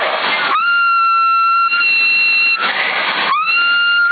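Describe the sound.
Steady whistled tones sent over a CB radio on the 27 MHz band. There are two sustained, level-pitched whistles, each scooping up slightly at the start, with bursts of rough radio static before and between them.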